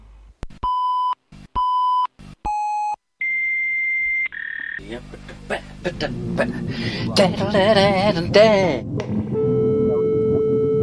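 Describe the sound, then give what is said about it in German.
A computer's alert beeps for attention: three short, identical mid-pitched beeps, then a longer, higher steady tone. A person then talks, with other sounds under the voice. “Da meldet er sich wieder. Das heißt, wenn dieses Geräusch ertönt, dann will der Computer, dass man sich mit ihm befasst.”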